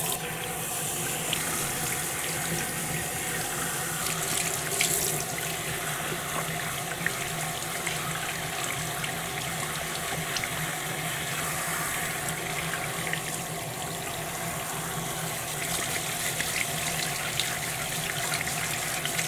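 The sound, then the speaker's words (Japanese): Warm tap water runs to rinse hair, a constant, loud rushing and splashing that holds steady for the whole stretch with no talking. “お湯の温度を見て、 はい、目つぶってザーッといくよ。”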